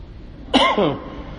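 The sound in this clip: A single short, rough cough with a sharp onset, fading quickly over a faint background.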